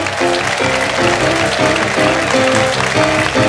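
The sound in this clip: Audience applause greets an Elvis tribute performer at a live show, steady clapping over rhythmic band music.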